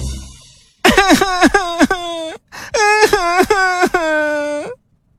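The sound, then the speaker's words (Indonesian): A boy's acted crying: loud, voiced wailing sobs in many short, pitch-wavering bursts, split into two runs by a brief gap, then silence. “Jadi dia mulai menangis.”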